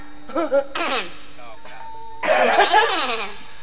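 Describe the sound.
A voiced throat-clearing before a song in a Sundanese comedy puppet performance: two short rough 'ahem' bursts, then a longer, louder, raspier clearing after a brief pause.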